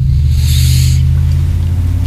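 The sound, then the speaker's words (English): A car that needs a muffler roars past with a loud, deep throbbing rumble, and a brief hiss rides over it at the start. “That car needs a muffler.”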